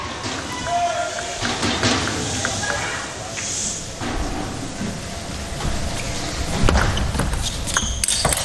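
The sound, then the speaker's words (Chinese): Table tennis ball strikes in a China team match rally that ends with a sidestep forehand attack: a few sharp, light clicks buried under steady crowd noise, with a commentator talking over the play. “漂亮，这一板拉穿了啊，毫无保留的一个侧身抢攻， 盯住了对方的这种搓长”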